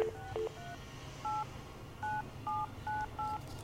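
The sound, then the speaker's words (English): Touch-tone keypad dialing of a 7-digit local number in Canada: a quick series of short, evenly spaced beeps, each a steady two-pitched tone, over faint background hiss. “I'm going to dial a number that's down the street. So I dialed the six, there's 7-digit number.”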